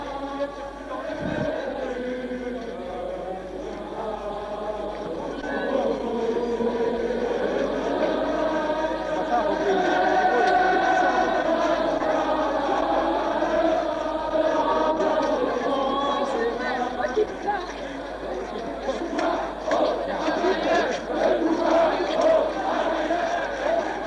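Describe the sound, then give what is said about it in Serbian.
A large crowd of demonstrators sings the Internationale and chants slogans, a dense, continuous mass of many voices that holds steady throughout. “Manifestanti vas pozdravljaju aplauzom, parolama i pevanjem internacionale.”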